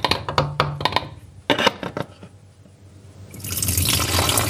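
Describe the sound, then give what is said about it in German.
Liquid is poured into two bottles. A few sharp clinks and knocks come first, then a steady, gurgling pour that swells and grows louder toward the end. No voices are heard. “Da eine Runde rein und in die andere Flasche eine Runde rein.”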